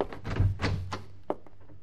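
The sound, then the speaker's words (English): Someone knocks at a door: a few dull, muffled thuds followed by one sharper tap, all fairly faint. “Is someone at your door? Yeah, I'll get it.”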